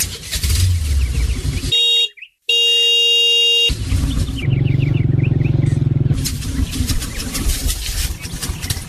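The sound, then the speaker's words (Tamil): A vehicle sets off and drives through busy traffic noise. A loud honking horn cuts in near the middle, and bird chirps sound over the engine and road rumble. “அப்ப வாப்பா, வாப்பா உடனே கிளம்பலாம், வண்டி எடுப்பா.”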